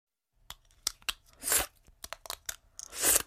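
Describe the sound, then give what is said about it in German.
Wet plastic clicks and crunchy snaps as an Invisalign clear dental aligner is pried out of the mouth: many sharp, irregular pops broken by two longer hissing, sucking bursts, fairly loud and with no talk. “have taken out my Invisalign”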